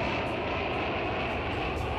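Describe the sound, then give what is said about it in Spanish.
Airplane engine noise in the background of a band's recording: a steady, dense roar with broad hiss that fills the whole two seconds at an even level, with no talking. “Ese sonido de avión que escuchamos al fondo”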